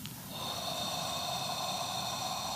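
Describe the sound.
A deep breath drawn in through the nose into the belly, heard as a steady, rushing nasal airflow lasting about two seconds, alone, without talk.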